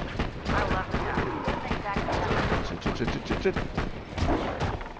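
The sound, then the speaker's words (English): Rapid pistol fire in a video game crackles in dense, loud bursts of many shots, with players talking over the shooting. “This is a really good pistol when I can aim properly. I'm just shooting nothing.”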